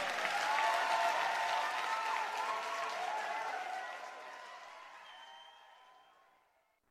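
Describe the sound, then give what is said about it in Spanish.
Sustained audience applause: a dense wash of clapping holds steady for several seconds, then thins and fades gradually to silence. “Aplauso para Pablo Cifuentes, por favor.”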